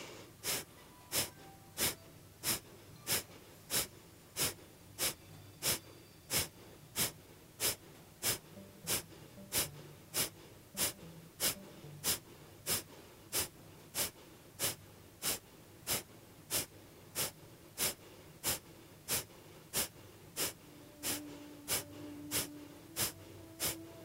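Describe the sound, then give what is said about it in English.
Forceful Kapalabhati yoga breathing: many short, sharp nasal exhalations in a fast, steady, evenly spaced rhythm. They sound fairly quiet and come alone, without talk. “And we'll do the Kapalabhati here for the purification. So big inhale.”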